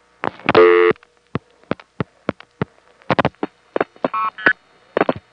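Telephone intercept trunk call reached by dialing a vacant code: a short, dense burst of tones, then a long irregular series of sharp switching clicks, with brief beeping tone bursts near the end.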